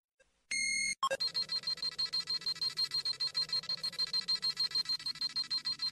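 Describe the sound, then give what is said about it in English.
Electronic scouter beeping sample: a short sustained electronic tone gives way to a rapid, steady train of many bright, high beeps repeating evenly without pause. “That's a really long, 1 minute long scouter sample. So I have to cut it off. It'll just keep making that noise over and over.”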